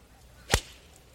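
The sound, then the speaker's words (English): A golf ball struck cleanly with a McGregor iron: a single crisp, sharp crack with a short swishing tail, standing alone against a quiet background. “Listen to that strike. Mm-hmm. Yeah. By the way, McGregor, the McGregor irons.”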